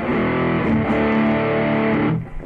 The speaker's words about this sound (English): What happens is that you still get the distortion, you still get that hectic overdrive, distortion, not overdrive.